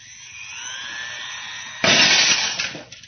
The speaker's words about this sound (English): It's amazing. The glass was shattered.